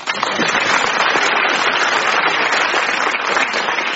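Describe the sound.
Applause from an audience at the close of a comedy round: dense, steady clapping that stays loud and even throughout, with no voices over it.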